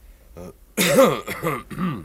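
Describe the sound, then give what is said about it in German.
A man coughs once in a short sharp burst, then gives a few more throaty cough-like sounds or clears his throat, loud and alone, with no other voices around. “Und auf einmal, da muss ich husten.”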